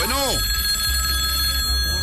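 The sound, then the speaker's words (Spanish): A telephone rings as a call comes in: a brief warbling chirp at the start, then a steady high ringing tone that holds to the end. “vamos con llamada telefónica, amigo mío, por favor”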